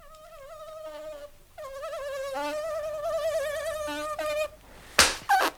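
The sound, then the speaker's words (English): Flies buzz on a hot afternoon at the British Embassy in Alexandria, a droning, wavering whine that slides up and down in pitch, followed by a sharp, loud burst near the end. “Curse these flies.”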